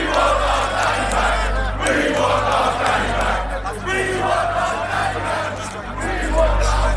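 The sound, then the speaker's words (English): Crowd of demonstrators protesting outside a police centre, a loud, continuous roar of many shouting voices that holds steady throughout with no pauses. “That was the sound of demonstrators outside Basingstoke's police centre protesting the arrest of Daniel Thomas, better known as Danny Tomo.”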